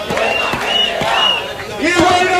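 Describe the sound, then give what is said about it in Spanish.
A protest crowd chants at a tenants' housing rally in Mérida, voices shouting a loud, rhythmic slogan together in short repeated bursts. “Bueno, pues este era el sonido de la tarde de ayer en Mérida. La plataforma de inquilinas celebraba este pasado jueves una nueva concentración para reclamar el derecho a la vivienda”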